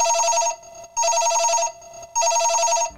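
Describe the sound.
A telephone rings in three loud bursts of bright, high warbling tone separated by short silent gaps, with no voices.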